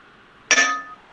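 A small bell struck once, giving a single bright metallic ding with ringing overtones that fades within about half a second over a faint steady hum.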